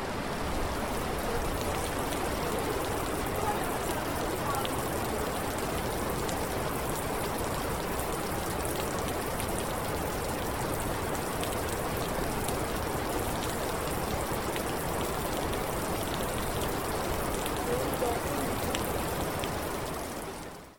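Rain falls outdoors in a steady, dense hiss of drops, even in loudness for about twenty seconds before it cuts off at the very end.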